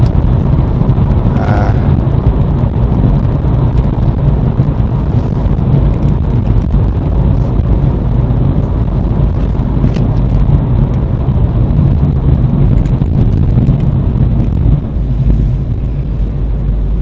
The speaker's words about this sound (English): I'm currently driving a Ford Focus automatic here in the UK.